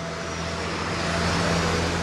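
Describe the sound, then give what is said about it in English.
Traffic on a downtown Houston street fills the air with a steady, even roar of passing cars and a low, constant hum. There is no talk. “Here in downtown, cars drive along Smith Street”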